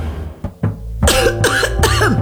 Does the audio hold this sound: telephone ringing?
no